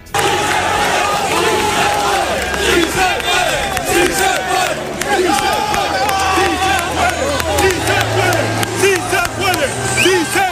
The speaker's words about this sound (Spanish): al final del encuentro se acercaron los futbolistas y fíjense el sonido con los aficionados desplazados hasta Almería.